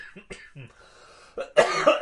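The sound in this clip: A cough breaks out after a few seconds of quiet talk: a short rough burst, then a longer, loud, harsh cough filling the end.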